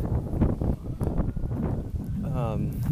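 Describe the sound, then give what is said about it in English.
Wind buffets the microphone during an outdoor walk, a constant low rumble and gusty roar beneath someone talking. “Just taking a walk. try and get somewhere where the wind isn't, you know, fully attacking me.”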